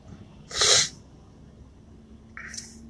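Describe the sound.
A single sharp sneeze caused by allergies bursts out loudly and briefly, then gives way to a quiet stretch with only a faint, short rustle near the end.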